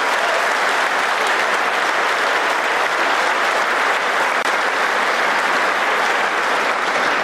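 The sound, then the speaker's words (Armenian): Republican lawmakers give Trump a standing ovation during his address, a sustained wall of loud, dense clapping that stays steady and unbroken from start to finish. “Ուղերձի ընթացքում խանդավառված հանրապետական օրենսդիրները ժամանակ առ ժամանակ կանգնում եւ հոտնկայս ծափահարում էին իրենց լիդերին”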